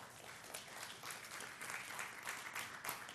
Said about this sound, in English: she was hoping for more than applause after 52 years.